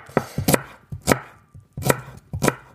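A knife chops spring onions on a board for an omelette, giving a run of sharp, crisp taps in uneven pairs and clusters with brief pauses, and no talk.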